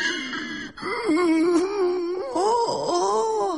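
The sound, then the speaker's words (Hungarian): A man cries in a drawn-out, wavering wail, his voice sliding up and down in pitch with gasping breaks. The moaning sob goes on almost without pause and stays fairly loud throughout. “Ez az ember meg miért sír?”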